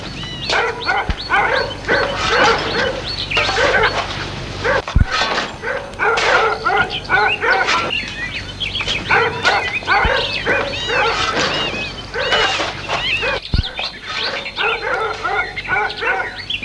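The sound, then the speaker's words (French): Dogs barking repeatedly in bursts of sharp barks and yips, some whimpering mixed in, fairly loud with short pauses between volleys. “Les chiens aboient de plus belle.”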